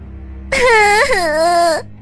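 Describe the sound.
A girl crying after falling and hurting her foot, one drawn-out, wavering wail that starts abruptly after a quiet moment, holds loud and tearful, then breaks off.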